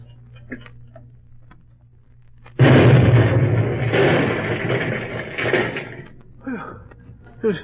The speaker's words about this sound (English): It went off in the yard. We were a split second away from being blown to bits.